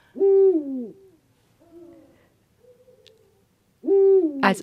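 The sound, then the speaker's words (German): Two-syllable hoots of a male eagle-owl, each a deep, loud falling call, heard once at the start and again near the end, with fainter lower hoots between them and no talk. “Also was man jetzt hier hört, ist der erste Ruf, das ist ein Männchen, das ist ein, ja, der Uhu ruft seinen Namen, ein zweisilbiges Uhu oder Buhu.”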